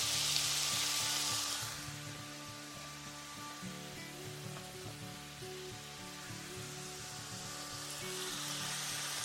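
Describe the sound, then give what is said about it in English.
Meat sizzles and browns in a frying pan, pressed flat like a large burger patty and left unstirred, giving a steady, faint hiss of frying fat throughout with no talk. “Just leave it to cook all on the outside, that side that you've actually put into the pan. Listen to that.”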